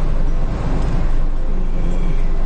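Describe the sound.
A rental Serena car sets off on Amami, giving a steady, loud low rumble of engine and road noise that stays even throughout.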